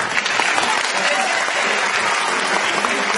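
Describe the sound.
Audience applause at a stage performance, a dense, continuous patter of many clapping hands held at a fairly loud, steady level throughout.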